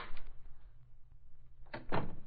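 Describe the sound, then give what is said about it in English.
A door is opened, heard as two brief bursts of clatter and rattle, the second louder, over a low background hum. “Well, it took you long enough to open the door. Come in, Varna, my dear.”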